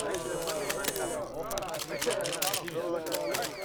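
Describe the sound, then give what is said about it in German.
Camera shutter clicks as a group takes a few more photos, sharp, quick clicks scattered over several seconds beneath people talking. “So, Leute, jetzt macht nochmal zwei, drei Fotos und dann muss ich aber los, okay?”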